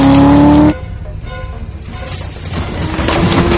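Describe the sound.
A car pulling away near a border, a steady engine tone at first giving way to a loud, rough rumble of motor and road noise that builds toward the end.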